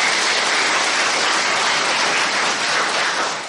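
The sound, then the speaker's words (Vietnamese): Applause from an audience: a dense, steady wash of many hands clapping, loud and continuous throughout, easing slightly at the very end, with no voices over it. “Chúng ta phải vỗ tay vì điều này chứ.”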